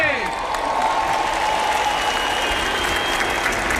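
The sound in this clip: A crowd applauds and cheers as a procession passes close by, with dense, continuous clapping and voices mixed in, holding at a steady, loud level throughout.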